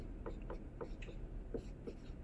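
Faint scratchy writing strokes as notes are written out during a math lecture, several short scrapes in an irregular rhythm, quiet and with no talk over them.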